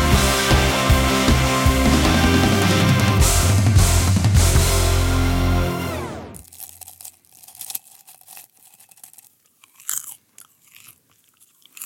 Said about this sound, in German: Popcorn. Irgendwie so richtig lecker und ich habe noch ganz schön viel im Mund